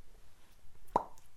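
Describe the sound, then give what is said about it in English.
A microphone-drop sound effect gives one short, hollow plop that stands out clearly against faint low background hiss. “And that's the sound of the plop of the mic.”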